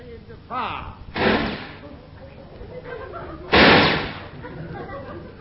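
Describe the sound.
Gunshots are fired at a floating sea mine, giving two loud, sharp blasts with rushing tails spaced a couple of seconds apart. Men talk around them.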